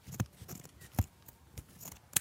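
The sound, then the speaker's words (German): Scissors cutting a round neckline out of fabric, making a few quiet, crisp snips spaced irregularly with soft rustling between them. No voices. “Und jetzt noch den Ausschnitt schön rund ausschneiden. Das geht dann schön schwer.”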